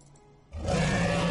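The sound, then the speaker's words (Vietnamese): A wounded water dragon, bitten in the belly during an underwater fight, lets out a deep, loud roar of pain that bursts in after a quiet half second and holds at full strength to the end. “Một con giao long bị dị thú cắn trực tiếp vào bụng phát ra tiếng gầm đau đớn.”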